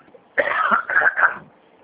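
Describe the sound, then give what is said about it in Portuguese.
A retired man with a slight tickle in his throat clears it: one rough, raspy burst lasting about a second, broken into two or three pulses. No talk is heard during it. “Desculpa, eu estou com um pigarrozinho.”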